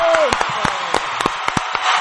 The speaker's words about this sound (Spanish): ¡Aplausos! ¡Aplausos de a de veras, la verdad, eh!